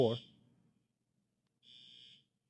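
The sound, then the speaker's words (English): A fire alarm goes off in a hallway and sounds as two short, high, buzzing bursts separated by a silent gap. The first burst overlaps a brief voice, and the second sounds alone and faint. “Do you guys have a fire alarm going on? Yeah, I'm not sure what's going on.”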